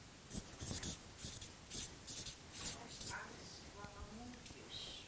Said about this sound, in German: Ich schreibe einfach Herz auf.